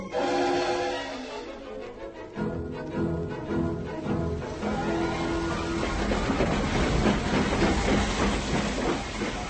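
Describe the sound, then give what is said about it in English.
A passenger train pulls into a station with loud, continuous rumbling and rail clatter mixed with hissing, the texture shifting partway through as it rolls in. “She's pulling in right on time, 7:15. Will Miss Morgan be in a first or second class carriage?”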